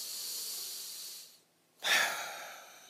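A slow, breathy inhale, then a short silent pause before a stronger, hissing exhale, heard alone with no talk.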